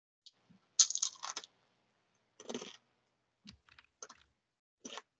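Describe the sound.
Crunchy chips being eaten: quiet, crisp crackles and crunches arrive in irregular bursts, some clustered and some single, separated by short silences.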